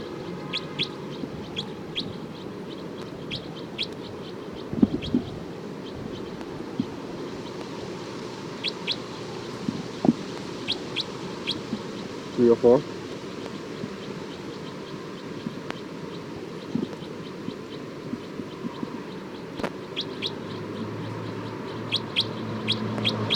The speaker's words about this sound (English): Alarm calls of bird 304. They're recording bird 304.